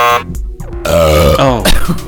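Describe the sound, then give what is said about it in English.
A loud, drawn-out belch, voiced and croaking with a rough, rattling tone, lasting about two seconds. “What is it with those belches? What is it with you? I have to take a break from these belches.”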